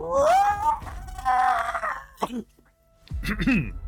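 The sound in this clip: A voice imitates a dragon-like creature's scream during a tabletop fantasy role-playing game. It gives drawn-out, wavering shrieks with a growling edge, pauses briefly, then lets out a shorter cry.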